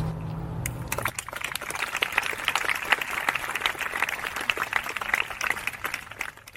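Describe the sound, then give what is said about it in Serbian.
Applause opens a film festival in Belgrade, with the audience clapping in a dense, steady patter at moderate volume that carries on evenly to the end after a brief lower sound at the start. “Ja bih hteo da otvorimo festival jednim uh, aplauzom za sve goste koji nisu mogli da dođu zbog pandemije COVID-19.”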